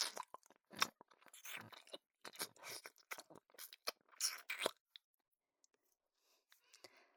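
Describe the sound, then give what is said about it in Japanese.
Wet chewing and smacking of cake being eaten, many irregular crunchy and sticky mouth sounds in quick bursts, fading to faint sporadic clicks near the end. “ゆずの口移しのケーキ、おいしい？”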